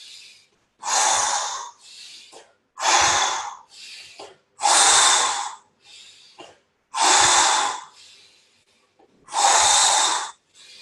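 Deep, full breaths during a guided breathing exercise: five loud, rushing breaths at steady intervals, each separated by quieter, shorter breaths.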